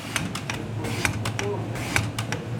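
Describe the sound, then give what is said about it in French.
Vegetables being sliced on a kitchen mandoline give quick, scraping clicks repeated in an uneven rhythm, with many strokes over a low steady background hum. “La mandoline. On va tout couper à la mandoline.”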